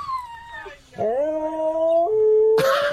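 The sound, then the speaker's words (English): Two dogs howling to each other over a video call, a high-pitched howl first, then a steadier, lower sustained howl that answers and holds its tone. “It's an amazing video of two dogs chatting on FaceTime. Right, it starts with the first dog, and then the other dog starts howling.”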